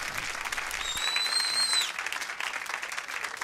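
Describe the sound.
Crowd applause at the end of a 1970 Elton John recording: dense, steady clapping throughout, with a sustained high whistle rising above it for about a second near the start.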